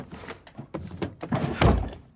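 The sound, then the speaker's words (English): Soft thunks of a book being shoved into a vanity drawer: a few muffled knocks, then a louder, heavier thump near the end, with no voices. “She shuts Rose's book and stuffs it in her vanity drawer.”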